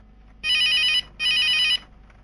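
A mobile phone rings from a coat pocket in two identical bursts of loud, high, trilling electronic ringtone, separated by a brief pause, with near silence before and after.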